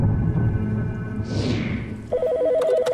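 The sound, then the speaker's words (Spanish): An electronic telephone ring for an emergency call starts partway in as a fast warbling trill of two alternating tones. A low rumbling backdrop and a brief whooshing sweep come before it. “Y todo empezó con una llamada al 911.”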